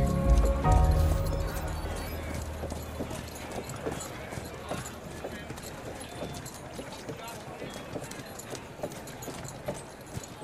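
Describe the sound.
Horse hooves clip-clop as they pull a carriage, a long run of regular, evenly spaced strikes with people talking over them and a heavy low rumble at the start.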